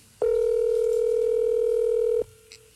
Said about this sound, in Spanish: Está timbrando.